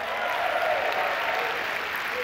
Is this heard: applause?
yes